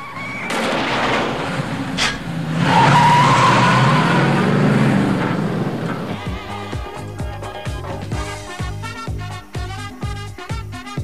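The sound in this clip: A truck drives out with a loud engine roar and tire noise, a broad rushing burst lasting about six seconds before settling into quieter, rhythmic sound.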